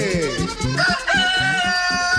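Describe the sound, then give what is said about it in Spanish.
A neighbour's rooster crowing: one drawn-out, loud cock-a-doodle-doo with bright, piercing harmonics, rising into a strained middle and held to the end of the brief clip. “¡El gallo de la vecina cantó!”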